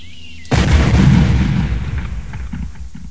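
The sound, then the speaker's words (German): A car explodes with a sudden, loud, heavy blast that cuts in after a quiet steady tone. A deep rumbling roar follows and slowly decays over the next two and a half seconds. “Der Wagen mit ihr drin ist einfach explodiert. Bumm.”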